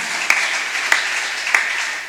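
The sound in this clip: Congregation applause in church, a steady wash of clapping with three sharp, evenly spaced claps standing out above it, easing off slightly at the end.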